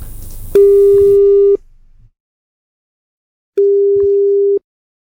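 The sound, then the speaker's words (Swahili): Ringback tone of an outgoing telephone call: two steady, mid-pitched tones of about one second each, separated by a pause of roughly two seconds, loud and alone after a short burst of other sound. “Nampigia simu, anaitwa Aisha binti Sagaf”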